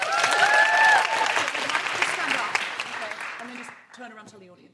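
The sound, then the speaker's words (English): An audience applauds loudly as a volunteer from the front row takes the microphone at a live event. The clapping is dense and steady, then fades, and a voice begins speaking. “Big round of applause for Sharon.”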